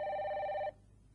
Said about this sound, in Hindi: आपको कुछ सुनाई नहीं दे रहा है क्या? टेलीफोन।